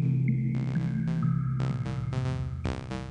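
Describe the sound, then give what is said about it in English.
Modular synth tones from a Generate 3 oscillator, with its fundamental, even, odd and core outputs mixed through a VCA mixer. A steady low drone runs beneath repeated bright, buzzy harmonic bursts that pulse in and out, and a thin high tone sits above them. “So what you hear right now are the fundamental, even, odd, and core outputs from the Generate 3 all going to the VCA mixer from AI Synthesis.”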